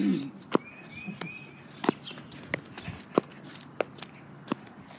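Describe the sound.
Footsteps of someone walking, a series of sharp, evenly paced steps ticking along at a steady rhythm over a quiet background, with some softer scuffs between the clearer footfalls.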